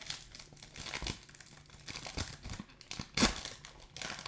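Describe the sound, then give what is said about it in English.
Crinkling and crackling of a foil pack of hockey trading cards being torn open and unwrapped, a dense run of crisp rustles with sharper bursts, loudest near the end. “I bet unwrapping these packs sounds so professionally on this new microphone.”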